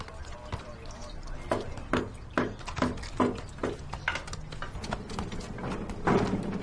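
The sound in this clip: Many knocks and thuds as a long stick is driven hard into a clogged toilet drain to unclog it, an uneven series of sharp impacts over a constant noisy, wet-sounding background.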